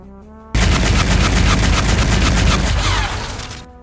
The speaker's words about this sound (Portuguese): E foi um disparo ou foi dois disparos aqui?